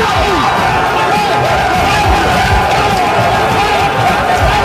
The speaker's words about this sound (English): So that was the sound in the Houston Texans locker rooms after they won their game against the Indianapolis Colts, meaning that they went to the playoffs.